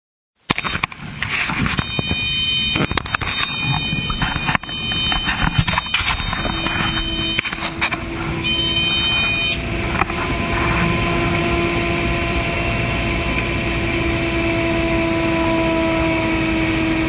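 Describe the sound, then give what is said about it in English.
An engine said to spin past 15,000 RPM cuts in abruptly after several seconds of rustling at a camera operator's seat, then holds a loud, steady, high whine to the end. “What you heard there was about 6 seconds of rustling at the videographer's seat. Then, as if on a switch, the engine appears, and then it rises as RPM,”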